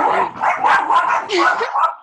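Dog barking in a quick string of several high, yappy barks with whimpering yips between them, loud and close together over about two seconds.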